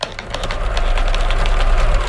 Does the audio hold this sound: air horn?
no